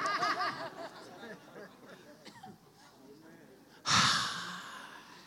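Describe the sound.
A church audience breathes out together in one loud, breathy rush that swells suddenly and fades over a second or so, following a stretch of quiet talk from the preacher.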